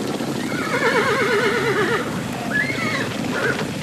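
Horse neighing while pulling a chariot in a heavy downpour: a long, wavering whinny, then a shorter second call, both over a constant loud rushing noise.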